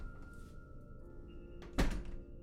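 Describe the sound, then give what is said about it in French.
A door opens with one solid, dull thunk over a quiet, steady background hum, preceded and followed by faint soft rustling. “d'un seul coup, la porte s'ouvre devant mes yeux.”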